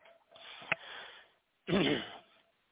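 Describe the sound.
Choking and sniffing after swallowing saliva the wrong way: a rough, breathy sniff with a sharp catch, then a louder, strained, voiced choking burst that fades into short wheezy breaths.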